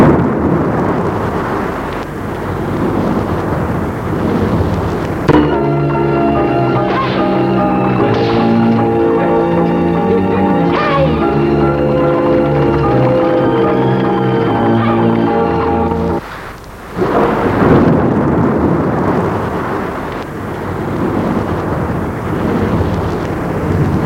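A night thunderstorm: a loud, steady rumbling roar fills the opening seconds, gives way to a long stretch of sustained tonal music, then returns strongly near the end.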